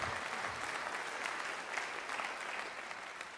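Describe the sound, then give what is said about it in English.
A church audience claps to welcome a pastor up to speak, a soft, steady and continuous applause that eases slightly toward the end. “I guess that's it. They're clapping, so come on up.”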